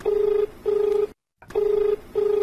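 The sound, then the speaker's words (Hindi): An incoming call rings on a telephone as a low, steady buzzing tone repeating in a double-ring pattern, two pairs of rings separated by a short silence. “देखें साहब, एक phone आ गया बा।”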